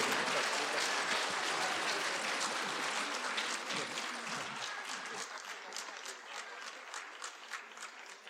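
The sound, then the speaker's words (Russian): Audience applause at an awards ceremony and gala concert: dense, sustained clapping from a large crowd that holds steady for several seconds, then eases slightly toward the end. “Аплодисменты ваши!”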